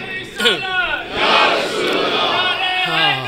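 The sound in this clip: A crowd chants the Haidari religious slogan at a gathering. A single raised voice leads, the crowd answers in a loud, swelling roar, and another voice comes in near the end.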